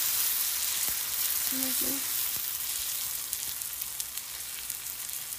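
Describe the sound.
An English muffin sizzles in a frying pan, giving a faint, steady hiss and fine crackle that holds evenly throughout, with a few small pops.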